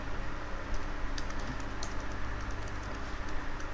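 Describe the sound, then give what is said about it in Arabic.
Typing a username on a computer keyboard: a steady run of soft, quick key clicks under a faint background hiss, with no voices. “هنكتب اليوزر نيم”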